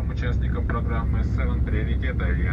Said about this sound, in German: Nicht mit Gazpromavia, sondern mit der russischen S7 Airlines fliegen wir nach Novi Urengoi, einer Großstadt nahe am nördlichen Polarkreis.